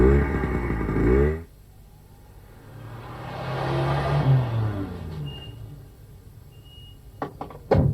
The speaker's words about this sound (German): Zuerst muss ich meine Maschine ausstellen.